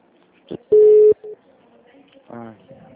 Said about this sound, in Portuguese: Não, não, eu apertei um botão aqui sem querer.